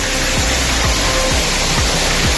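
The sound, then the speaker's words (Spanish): Heavy rain pours down during a thunderstorm in Nieva de Cameros, La Rioja, a loud, dense, unbroken hiss filling the whole stretch, with a regular low pulsing repeating underneath. “Así caía el agua. Se acumulaban hasta 15 litros por metro cuadrado en tan solo una hora.”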